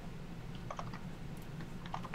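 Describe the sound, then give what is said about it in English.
Keystrokes on a computer keyboard come in two short bursts of quick, light clicks, with a faint steady low hum in between. “Oops, I typed in the wrong spot.”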